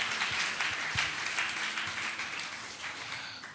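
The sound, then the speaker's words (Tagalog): A church audience applauds in worship, a thick wash of many overlapping claps that holds steady at first and then gradually fades toward the end. “Palakpakan nga natin ang Panginoon.”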